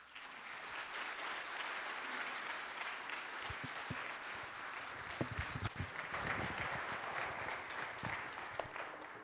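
A church audience applauds to welcome a guest pastor before his sermon: quiet, continuous clapping with a few sharper individual claps standing out near the middle.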